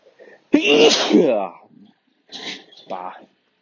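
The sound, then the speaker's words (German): A sneeze brought on by hay fever bursts out as one loud, sharp, explosive blast, followed by a couple of shorter, quieter voice sounds. “ich muss gleich nochmal niesen”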